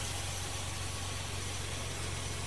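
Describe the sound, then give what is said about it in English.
A car engine idles steadily, giving a low, even hum with a faint higher whine that stays constant for the whole stretch, with no revving or distinct events. “Turn the car off. Turn the car off.”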